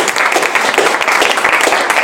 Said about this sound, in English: So let's please give a warm welcome and show our appreciation to Mr. Mervyn!